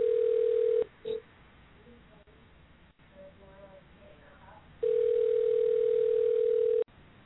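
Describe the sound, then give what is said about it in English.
Ringback tone of an outgoing telephone call: a steady mid-pitched tone cuts off, then a long, quiet gap with faint background noise and a brief blip follows before the same tone returns for about two seconds and stops. “We're gonna make a surprise call.”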